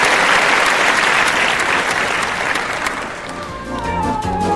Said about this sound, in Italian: Doveroso l'applauso dedicato alla memoria